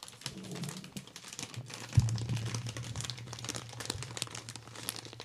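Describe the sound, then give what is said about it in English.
Crinkling of a bag of chips being handled, with an irregular, continuous crackle and rustle and a slightly sharper crunch about two seconds in, heard alone. “Just open the fucking bag.”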